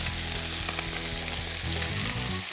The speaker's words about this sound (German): Die werden wie ganz langsam frittiert. Darf man von der Hitze nicht zu hoch machen.